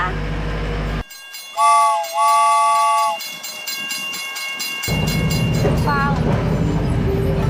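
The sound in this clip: A small sightseeing train sets off, its rumble dropping away while two steady horn blasts sound, the second longer, before heavy rolling clatter and noise return and continue to the end.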